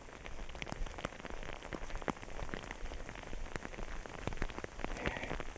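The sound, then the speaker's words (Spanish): Small hailstones about the size of rice grains falling, making a dense, steady, quiet patter of fine ticks and clicks with occasional sharper hits throughout. “Bueno, el granizo no se ha hecho demasiado grande. Son como granitos de arroz.”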